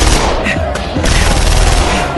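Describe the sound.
Heavy gunfire from ambushers shooting down from a ridge, a loud, dense, unbroken crackle of rapid shots that fills the whole stretch without pause.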